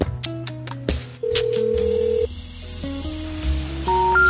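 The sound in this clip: A telephone number being dialed: a series of short electronic tones at varying pitches, then longer steady tones, ending with higher beeps. Fairly faint, with no voices.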